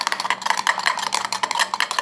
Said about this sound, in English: Stir it together.